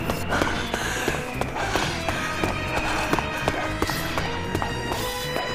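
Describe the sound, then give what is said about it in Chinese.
Rapid running footsteps pound up a flight of stairs in a steady, hurried rhythm of many sharp, fairly loud steps over a dense, continuous background. “冬至的脚步越来越沉重，喘息声越来越大，连自己都能听见”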